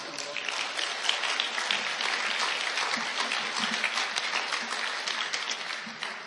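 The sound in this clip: An audience at a ministry gathering applauds to welcome a speaker onto the stage, with dense, steady clapping that keeps an even loudness throughout.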